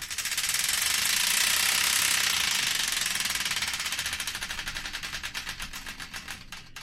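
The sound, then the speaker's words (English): A prize wheel is spun to pick a song. Its pointer clicks in a dense, rapid rattle that gradually slows, and the individual ticks spread further apart toward the end. “The Wheel of Destiny is here ready to be spun, so without further ado, let's spin it and find out the song that's kicking things off.”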